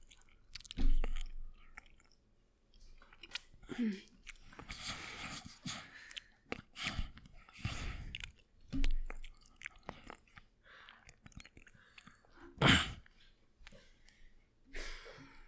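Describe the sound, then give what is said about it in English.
Crunchy chewing and eating of pretzels, close and alone: many crisp bites and crackling chews in an irregular rhythm, with soft breaths and mouth noises between them and one louder sharp crunch near the end. “I am just going to play a short clip of myself tasting and eating the pretzels”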